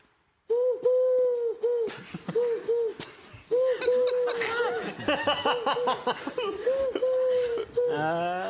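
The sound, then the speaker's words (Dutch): A parrot imitating a pigeon gives repeated low, hooting coos in a steady pattern, with laughter and voices joining over the later calls. “Dat is een papegaai die een duif nadoet.”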